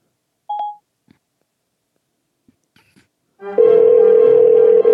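Phone dialing tones placing a call to an iPhone: a short bright beep, a few faint clicks, then a steady, loud, sustained tone that runs to the end.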